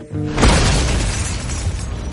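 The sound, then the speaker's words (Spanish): A convertible car explodes after its engine throws sparks and black smoke pours from the hood: a sudden loud blast with a shattering crash, followed by a sustained, heavy roaring rumble that stays loud to the end. “El descapotable explota.”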